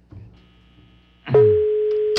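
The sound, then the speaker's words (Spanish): A telephone rings on an unanswered call. After a quiet, faintly noisy opening, a single steady electronic ringback tone starts about halfway through and holds at an even pitch to the end. “Está sonando el teléfono de la señora Cecilia, pero no contesta.”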